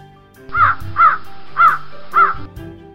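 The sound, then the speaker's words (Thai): Crows caw beside their nest in a forest: four loud, harsh caws at an even pace, with no voices. “เขาพบกับพ่อและแม่อีกา ยืนอยู่ข้างรังของพวกมัน และกำลังโยนลูกน้อยตัวหนึ่งออกมา”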